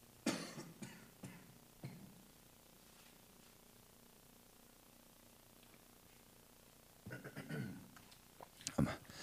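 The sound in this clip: Throat clearing and coughing from a preacher pausing mid-sermon. Rough, gravelly bursts come in a cluster at the start, then a quiet stretch, then another cluster of harsh hacks near the end.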